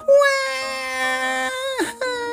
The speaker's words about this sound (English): Well, she had no choice. Trixie bawled.